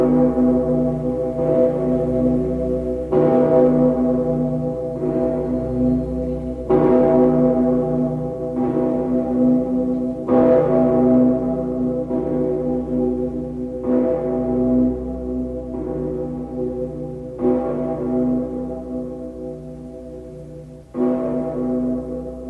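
A huge church bell in Cologne on the Rhine, cast from melted-down cannons, tolls slowly: deep, evenly spaced strikes roughly every second and a half, each leaving a long humming resonance that overlaps the next.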